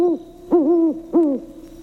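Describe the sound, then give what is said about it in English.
A great owl hooting: three deep, resonant hoots in quick succession, the middle one drawn out longer than the others, loud and alone with no other sounds. “a great owl hooting suddenly made him jump.”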